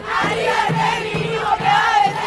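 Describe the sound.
A crowd of Argentine women cheers and chants in celebration of a lower-house vote expanding abortion rights. Their voices rise in steady rhythmic pulses, repeating about every half second.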